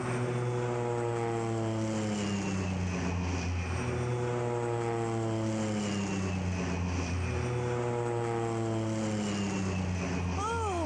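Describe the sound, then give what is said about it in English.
A propeller airplane climbs, its engine giving a steady, loud drone with strong tonal harmonics that waver and dip in pitch as it goes, continuous and without voices. “Crazy pilot. What's he doing? Well, tell him to stop. Crazy fool, climbing like that.”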